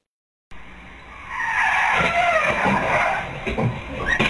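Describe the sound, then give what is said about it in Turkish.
A car in Erzurum skids out of its driver's control on a road: after a moment of silence, a harsh tyre squeal swells and holds loud, with rough scraping bursts near the end. “Erzurum'da sürücüsünün kontrolünden çıkan otomobil hızla sürüklenmeye başladı.”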